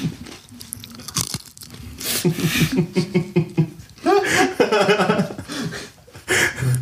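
A crunchy snack being bitten and chewed while it is tasted, giving a few sharp, crackly bursts. Vocal sounds come and go around the chewing throughout.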